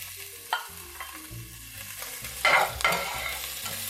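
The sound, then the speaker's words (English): Minced ginger sizzles in hot oil in a pan where garlic has just browned, with a spatula stirring it: a soft, steady frying hiss broken by a few louder scraping strokes, the sharpest near the end. “Here goes my minced ginger. Stir that up.”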